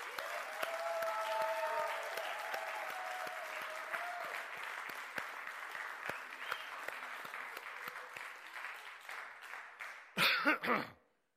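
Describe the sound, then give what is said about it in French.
A church audience at a French-language worship service claps together in sustained, even applause that carries on for several seconds, tapers slightly, then ends in a short final burst before stopping. “Acclamez le nom de Jésus avec toute notre force.”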